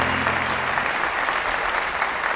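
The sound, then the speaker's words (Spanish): Applause from a crowd, a dense steady wash of clapping that stays loud and even throughout, with a faint low hum fading out in the first second. “aplauso.”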